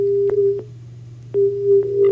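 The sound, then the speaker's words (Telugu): A caller's phone line has been cut off, leaving a steady mid-pitched electronic tone that stops once and then resumes, over a low constant line buzz with a few faint clicks; no one talks. “Phone line cut అయినట్టుంది.”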